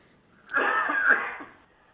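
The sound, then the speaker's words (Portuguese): A man gives a single raspy cough, a rough burst of about a second that rises quickly and fades out, heard alone with no talking around it. “Deu tosse aí, deputado. Mas tá tudo certo, pode ficar tranquilo. Ao vivo essas coisas acontecem mesmo.”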